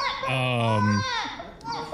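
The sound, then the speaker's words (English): A person imitates a crying baby with a short, high, strained wail that breaks into a few brief fussing sobs toward the end. “If you need sound effect for that, by the way, I could do a baby crying.”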